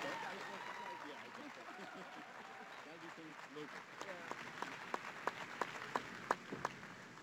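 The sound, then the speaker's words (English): An audience applauds and claps at an event welcoming the PWHL San Jose hockey team to the Bay Area: a soft crowd wash under a voice talking, with sharp separate hand claps standing out toward the end. “I'm supposed to ask you to make some noise and put your hands together, but you're already doing that as we officially welcome PWHL San Jose to the Bay Area.”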